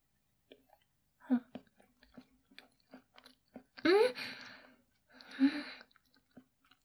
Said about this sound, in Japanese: 上の栗食べちゃおう。よいしょ。あ、崩れる。クリームが崩れる。